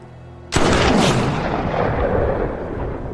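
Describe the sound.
A single loud gunshot in a Western-style showdown. It is one sharp crack followed by a long rumbling tail that fades slowly over a few seconds.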